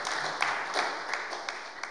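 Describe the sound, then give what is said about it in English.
An audience applauds after an incredible story is told, with faint scattered claps forming a soft, uneven patter that continues throughout. “Wow, come on, we can clap that again.”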